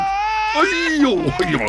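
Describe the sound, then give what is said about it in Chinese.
A baby crying while being carried, the child feeling hot to the touch: a loud, wailing cry that holds a steady pitch at first, then breaks into wavering, sobbing bursts. “哎，小家伙，哎呀，你别哭了。”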